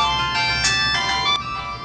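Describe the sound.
A mobile phone ringing with a melodic electronic ringtone, bright tonal notes repeating steadily at an even level, with no talking over it.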